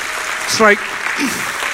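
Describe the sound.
A church audience applauds to welcome visiting worship leaders. The steady wash of clapping is briefly topped by a short vocal cry near the start.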